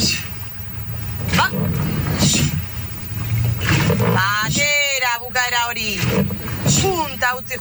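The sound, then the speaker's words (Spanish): Women rowers training in a rowing boat in Donostia, with voices calling out over a steady, loud wash of water and boat noise that continues throughout. “Entrenamiento de las remeras de Arraún Lagunac en Donostia.”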